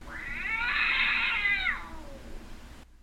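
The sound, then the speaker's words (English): A cat gives a single drawn-out meow, loud and clear, that slides down in pitch at the end before fading out. “what's more Halloween-y than a witch and a cat?”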